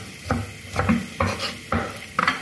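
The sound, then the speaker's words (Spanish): Garlic sizzles and browns in a pan, being stirred for a tomato pasta sauce. A few scraping stirring strokes rise over a steady crackling fry. “Bien, ahí se empiezan a dorar los ajos.”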